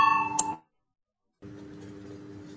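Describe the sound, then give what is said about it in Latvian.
A parliament voting bell rings as a bright, sustained electric tone for about half a second, then cuts off into silence before a low, steady noise takes over. “Lūdzu zvanu, balsosim”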